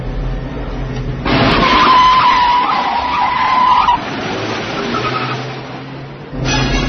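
A car skids at speed, its tires giving a loud, sustained squealing screech for about three seconds over a roaring engine, then the noise eases before swelling again at the end.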